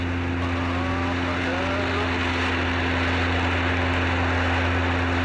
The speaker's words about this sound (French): on est aligné sur la piste donc on va décoller, je vais augmenter la puissance